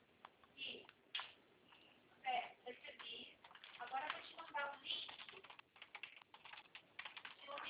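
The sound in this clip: Many irregular clicks of keys being typed on a computer keyboard as a code is entered, sharp and quick in uneven bursts, with some speech alongside.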